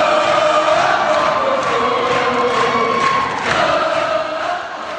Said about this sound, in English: That was the sound of jubilation inside the West Virginia State Capitol as teachers discovered that they had indeed won a 5% pay raise after a historic 9-day strike in West Virginia.